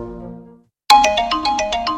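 A smartphone ringtone breaks in abruptly after a fading tonal passage and a brief silence. It plays a rapid run of many bright, repeating electronic notes at a steady, fairly loud level.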